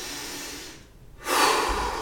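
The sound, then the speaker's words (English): A deep breath drawn in: after a short quiet pause, a loud, breathy rush of air begins and carries on steadily to the end, with no talk. “make sure that when we experience that anger, that we're able to take that deep breath”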